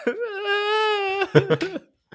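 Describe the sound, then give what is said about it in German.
A male voice lets out a crying wail: a long, steady, high-pitched cry that breaks into a few choppy, sobbing bursts before stopping. “und jetzt heult er”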